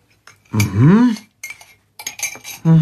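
Cutlery and dishes clinking during breakfast in a kitchen, a few short bright metallic and ceramic chinks between brief pauses.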